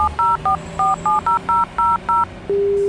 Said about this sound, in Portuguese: Vou ligar para ele e tirar isso a limpo.